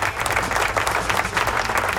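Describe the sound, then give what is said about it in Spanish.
Studio applause played on air for a radio show: dense, continuous clapping from a crowd, loud and steady with no pauses, heard alone. “Aplauso, ¿dónde están los aplausos? Suenan los aplausos, ahí están los aplausos.”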